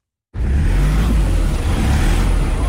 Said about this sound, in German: Wenn die Reifen durchdrehen, hilft kein Gas geben mehr. Und das passiert häufig auf der schmalen, kaum ausgebauten Straße von Kathmandu in den Katastrophenbezirk Roshwar.